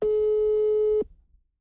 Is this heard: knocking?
no